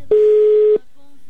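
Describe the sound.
A telephone call ringing out: a single steady, loud, mid-pitched ring tone lasting under a second, followed by a faint low hum.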